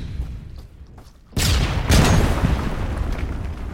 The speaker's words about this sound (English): Give me a couple of Mills bombs! Who's got the Mills bombs?